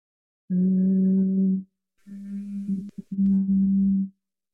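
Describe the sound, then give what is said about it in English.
Humming bee breath, a steady low hum made with the hands over the ears: one even, sustained hum, a short pause, then a longer hum that wavers and briefly breaks in the middle before settling again. “there's a breath work that we take called the humming bee breath, and where we just take our hands over the ears and we basically hum, so that we go”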